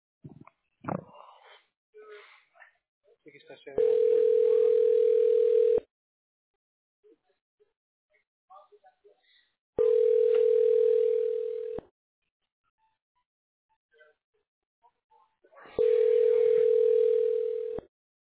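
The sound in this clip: A steady telephone tone sounds in three long beeps of about two seconds each, separated by pauses of several seconds. Faint speech and soft rustling fill the gaps between beeps.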